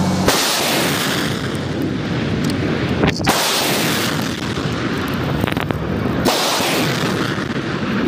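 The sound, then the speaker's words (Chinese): Long-range rocket artillery firing during a military drill: a continuous, loud rushing roar of launches with a few sharper, heavier bursts standing out, sustained throughout with no voices. “各炮根据阵地位置、弹药条件进行弹道解算。 一，发射。”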